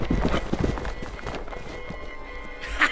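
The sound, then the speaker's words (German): Galloping hooves of a group of six riders' horses thud in a quick, uneven clatter, loudest in the opening second, then thin into a softer patter. “jagte der junge Herzbruder mit noch 5 Pferden und grüßte ihn mit seiner Pistole.”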